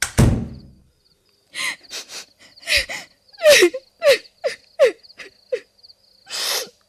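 A door is shut in a home with one heavy thud at the start. A series of short, high squeaky chirps follows.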